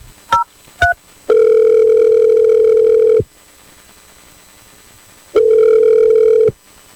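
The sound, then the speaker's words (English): A telephone is dialed: two quick beeps, then a loud, steady ringback tone lasting about two seconds. After a silent pause, a second, shorter ring follows. “Okay, I'm dialing it right now.”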